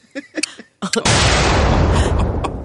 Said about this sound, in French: Dans mon enthousiasme, j'ai accroché la bombe que j'avais volée à la Russie.